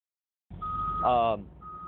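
Truck reversing beeps: a steady high electronic tone over a low engine rumble, breaking off briefly near the end before sounding again.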